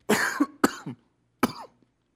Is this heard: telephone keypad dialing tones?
no